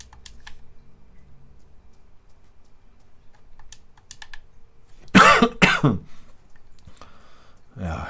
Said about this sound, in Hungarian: Köhögök én is, mint a karakter, komolyan.